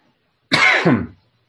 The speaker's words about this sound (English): I still have a little bit of a cough. It is getting better, so that's good news.